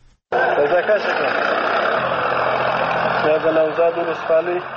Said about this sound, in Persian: این صدای تراکتورهای تخریب مزارع خشخاش است که مقامهای محلی طالبان با رسانه‌ها شریک ساختند.